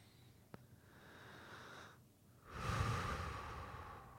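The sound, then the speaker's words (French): Deep breathing during a guided eyes-closed relaxation exercise: a faint, slow, airy breath that stays soft early on, then swells louder through the second half. A small click sounds near the start, and no voices are heard. “Je vous invite donc à fermer les yeux aujourd'hui, respirer profondément.”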